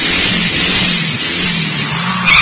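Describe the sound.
A car engine revs loudly and steadily throughout, a dense roaring rush over a low droning hum, with no voices.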